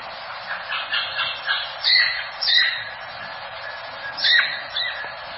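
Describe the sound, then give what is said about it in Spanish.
Blackbirds calling while flying or on the ground, a run of scratchy, squawking chirps repeated in quick succession, with a few louder, higher calls standing out against a steady background. “Y estos son los sonidos que normalmente escucha si hay mirlas volando, claro. o en el suelo.”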